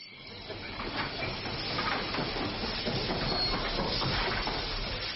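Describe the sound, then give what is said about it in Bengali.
A train engine clatters as it arrives outside a house, a rumbling, clacking roll mixed with steamy hiss that builds over the first second or so and then holds steady and loud. “এমন সময় ঝকঝক শব্দ করতে করতে ঘরের বাইরে একখানা engine এসে দাঁড়াল।”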